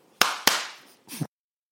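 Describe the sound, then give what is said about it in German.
Two sharp hand claps in quick succession, each ringing briefly. “Klatsch mal zweimal,”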